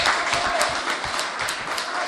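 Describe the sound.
Audience applause during a speech about morality and honesty, a fairly faint, steady patter of many hands with slight swells and dips in level.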